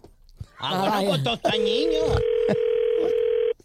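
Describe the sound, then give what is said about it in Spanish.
A telephone ringing tone sounds while a call is placed: a single steady, pitched tone lasting about two seconds. A person talks just before it and over its start. “Ok, mira, le estamos marcando, tú nomás no hagas ruido”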